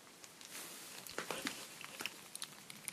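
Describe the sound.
Popping candy crackles in a mouth: many tiny sharp pops and snaps go off irregularly, faint and close, with a soft chewing rustle underneath.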